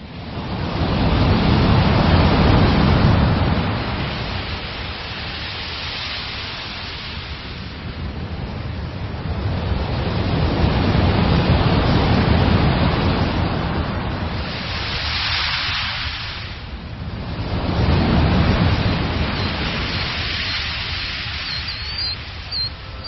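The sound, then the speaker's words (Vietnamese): Rolling waves of the East Sea wash against the shore in a few broad surges of rushing noise that swell and fade over a steady roar, with no voices. “từng đợt sóng nối tiếp nhau vỗ vào bờ ì oạp.”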